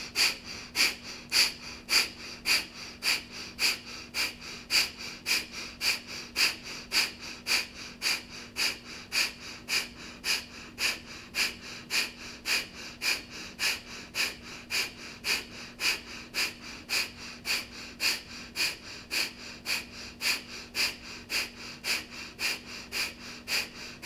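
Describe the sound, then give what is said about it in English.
Breath of fire breathing: many rapid, forceful belly-pumping exhales through the nose in a steady, even rhythm, each a short sharp puff of air, over a faint constant hum. “Now we'll take a quarter of a breath in, strong belly pumping exhale for breath of fire.”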